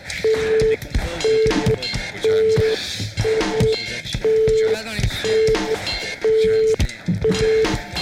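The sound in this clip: Telephone dialing tones sound as someone dials a phone, a regular run of steady mid-pitched beeps at about one per second, heard under talk and other busy sound.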